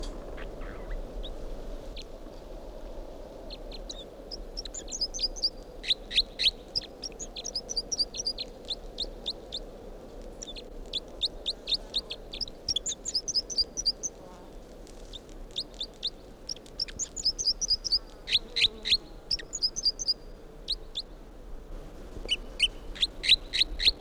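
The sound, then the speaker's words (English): Bird song made of many short bursts of high, rapid notes, repeated phrase after phrase over a faint low hum, with no talking. “this is the song of bird 305.”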